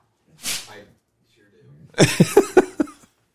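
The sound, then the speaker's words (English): A single sneeze gives a brief, hissy burst. After a pause comes a quick run of voiced bursts, like a voice speaking. “Quit sneezing.”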